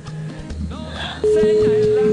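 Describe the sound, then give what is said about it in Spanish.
Ringing on an outgoing phone call: after talk and background sound, a single steady, mid-pitched ring tone starts and holds loudly to the end. “A ver, ¿será que contestan? Está timbrando”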